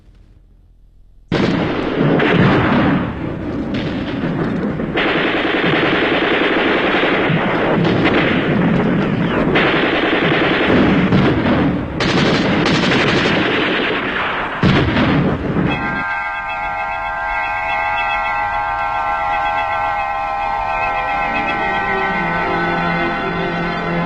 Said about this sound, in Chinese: 那些年月里，飞鸟早已习惯了枪声炮声，习惯了硝烟弥漫的天空